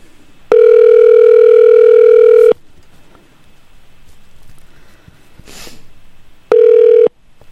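A telephone rings with a loud, steady, mid-pitched tone lasting about two seconds, then a quiet pause with a faint sniff, then a second, shorter tone.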